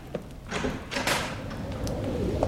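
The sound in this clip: A door is opened, with a dull thud and a brief scrape of the panel, followed by faint knocking sounds.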